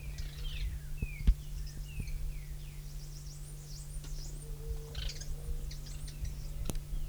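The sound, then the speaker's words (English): Faint twittering from three birds: many short, high chirps and thin notes scattered over a steady low hum. “three birds present. Little twittering notes.”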